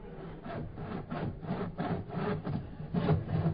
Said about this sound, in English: Turn the volume on that saw down. Do you want to wake the government up?